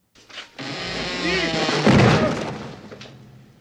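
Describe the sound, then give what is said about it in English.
A bookshelf topples over in the library scene of Ghostbusters (1984). A short thump opens into a loud, swelling rumbling crash that peaks midway and then slowly dies away. “That was when they first go into the library at the start, a bookshelf falls over.”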